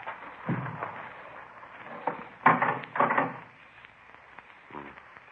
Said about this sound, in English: Once more ought to do it now. Yeah, there we are. Let's get it open now.